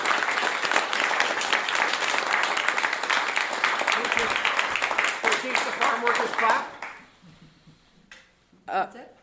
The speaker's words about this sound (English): And also thanks to all of you for being here in the audience and being part of it. Let's give all of you a hand.